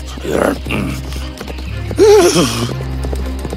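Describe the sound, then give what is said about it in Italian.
A horse gallops through a forest with clip-clopping hooves, and a loud whinny rises and falls midway through over a steady low hum. “Il forte rumore del mio cavallo disturbò il gigante addormentato, che divenne furioso.”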